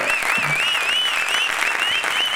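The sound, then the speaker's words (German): Studio applause greets the reveal of a top-ranked item in a comedy countdown, a dense, steady clatter of clapping that holds an even, fairly loud level throughout. “Applaus, Applaus!”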